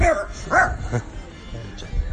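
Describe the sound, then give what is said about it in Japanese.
A few short, sharp dog barks or yips bunched near the start, each a quick tonal burst, followed by quieter background noise. “犬ちゃん”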